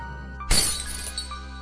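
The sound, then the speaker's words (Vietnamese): Wine glasses and red wine falling to the floor and shattering: a single sudden, loud crash of breaking glass, bright and splintering, that fades into a few lighter trailing clinks. “cả ly cả rượu đều rơi xuống đất.”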